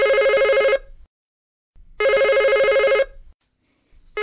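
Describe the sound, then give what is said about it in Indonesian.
A home telephone rings with loud electronic trilling bursts separated by silent pauses. There are two full rings, and a third is just starting at the end. “Ketika Nita sedang asyik bermain, telepon rumah berdering.”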